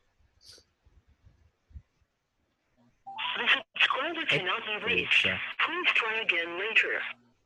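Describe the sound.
A phone call is placed: a few faint taps and clicks come first, then a narrow, tinny recorded message plays over the line for about four seconds.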